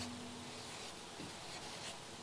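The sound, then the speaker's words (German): Writing sounds: soft, continuous scratching and rubbing across a surface. The sound is faint and steady, with a few slightly stronger strokes, and no one talks. “Also da können wir mal schreiben, das ist der Weg”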